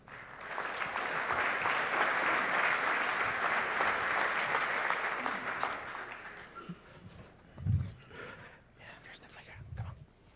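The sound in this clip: Audience applause at a conference session welcoming the next speaker, a dense burst of clapping that holds steady for several seconds, then thins out and fades, leaving a couple of soft low thumps and quiet stirring.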